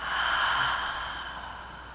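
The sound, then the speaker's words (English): A deep breath during a guided breathing exercise: a soft, airy rush that swells early and then slowly fades. It is faint and alone, with no talk. “Another deep breath in and out.”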